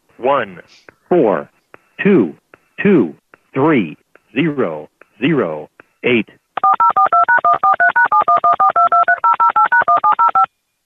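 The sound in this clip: Touch tones sound as a telephone number is dialed: a long run of many rapid, evenly spaced beeps at shifting pitches, following a stretch of short, separate voiced bursts.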